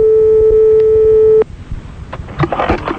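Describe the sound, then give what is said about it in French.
A telephone tone sounds on an outgoing live call from a radio studio: one steady, even hum for about a second and a half, then an abrupt cut-off followed by faint clicks and line noise. “on appelle un monsieur Manon Delon dans le studio. Direct.”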